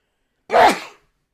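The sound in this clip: A single sneeze bursts out loud and breathy, about half a second long, rising sharply and then trailing off into silence.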